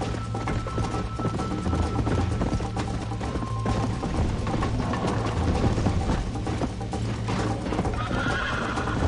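Horse neighing and hooves clip-clopping in a video game, a whinny over a steady run of hoofbeats against a dense, busy background.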